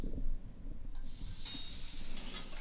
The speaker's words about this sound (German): Die haben 130 Gramm und sie sind von außen gesalzen, nicht von innen. Ganz wichtig, nur von außen salzen. Und die gehen jetzt auf die Grillplatte.